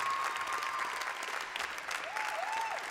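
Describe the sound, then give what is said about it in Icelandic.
Audience applause for a band at a music contest decided by viewer vote, a fairly quiet but steady spread of many hands clapping that holds evenly for the whole clip. “gefa þeim gott klapp”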